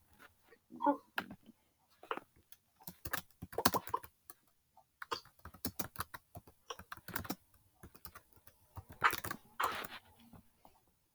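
Typing on a computer keyboard while a folder is made on the computer: many quick, irregular keystrokes in short bursts with brief pauses, fairly crisp and on their own.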